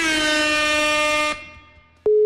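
An unanswered phone call tone: a loud, buzzy, harmonic-rich tone holds steady, then cuts off into a brief fading lull before a clear, pure, steady beep starts abruptly. No voices.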